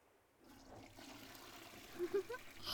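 A toilet flushes with a soft, steady rush of water that swells gradually, with a few small gurgles and splashes near the end, all fairly faint.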